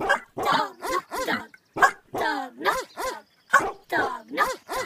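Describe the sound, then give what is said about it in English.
Dog barks in a rapid run of many short, harmonic yelps and barks. Each falls slightly in pitch, with brief gaps between. “It is a dog.”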